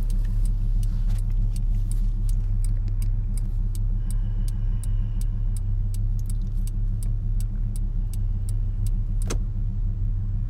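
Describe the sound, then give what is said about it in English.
A car drives, heard from inside, with a steady low engine and road rumble and a regular, rapid ticking running throughout. Nobody speaks. “Funny how I'm always driving as I do these podcasts.”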